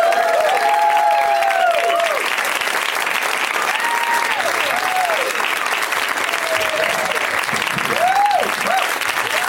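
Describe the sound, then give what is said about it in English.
Audience applause welcoming guests onto a comedy show: sustained, dense clapping throughout with scattered cheers and whoops riding over it, staying loud from start to finish. “Please give a big give a warm welcome to Neil Brennan, Paul Scheer, and Topher Grace.”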